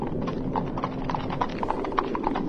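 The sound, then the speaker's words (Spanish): Hooves of two horses, one a mare, clip-clopping over grassy ground as riders return home: steady, brisk, overlapping hoofbeats throughout. “Gabriela en su yegua pirata y Violeta cabalgando a Zeus regresan a casa.”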